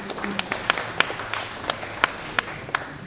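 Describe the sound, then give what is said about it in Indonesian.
Audience applause for the speakers at an art talk at the Bandung Contemporary Art Award 2019, a scattered run of many sharp, separate claps over a murmuring background. “Sebelumnya kita kasih applause dulu kepada para speaker.”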